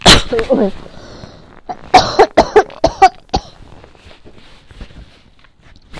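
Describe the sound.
Coughing from throat trouble, a short cluster of several sharp, rough coughs in quick succession, loud against a quiet background after a brief voice at the start.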